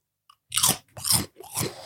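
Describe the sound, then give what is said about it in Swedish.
Crunchy snack food being bitten and chewed: a tiny click, then three loud, crisp crunch bursts in a steady rhythm, with no talking. “Så vi har köpt lite munchies här. Så det blir nog ett och annat knaprande i mickarna”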